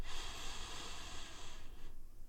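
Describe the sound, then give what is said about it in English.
A soft breath is drawn in through the nose: a faint, airy hiss that lasts nearly two seconds before tapering off. “Tip of my nose, breathe in.”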